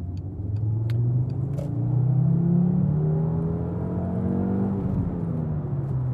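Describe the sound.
Car driving on a clear road just after leaving the motorway, a steady low engine rumble and tyre roar with a gently shifting engine tone, no voices.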